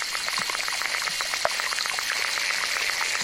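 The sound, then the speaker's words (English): Underwater pond insects in a small pond in Mora, New Mexico, picked up by a hydrophone, make a dense, steady crackle of many tiny clicks and ticks. One sharper click stands out near the middle. “Using an underwater recording device called a hydrophone, David Dunn collected this collage of insect sounds from a small pond in Mora, New Mexico.”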